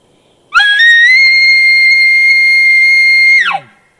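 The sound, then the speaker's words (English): Challenge bugle call made to draw a bull: a single loud, high-pitched, aggressive whistling note that sweeps up at the start, holds steady for about three seconds, then drops away sharply. “Okay, next, I'm going to move it up to what a lot of people call a challenge bugle, and you're going to hear the difference in emotion.”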